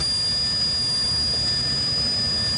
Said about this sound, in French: Ok, mise en puissance. Arrêt à décoller, attention. Puissance